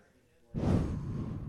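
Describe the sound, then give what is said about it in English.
A single deep breath during a guided breathing exercise: quiet at first, then an airy intake begins suddenly and carries on as a soft, sustained hush. “Let's take a breath even.”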